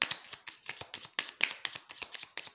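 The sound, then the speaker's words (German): Tarot cards being shuffled by hand, a soft, brisk run of many rapid papery riffles and flicks in quick, uneven rhythm, faint and alone without talk. “Ich habe hier das Aleister Crowley Tarot zur Hand. Und jetzt mische ich die Karten.”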